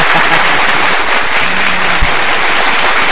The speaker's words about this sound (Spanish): Un verdadero aplauso.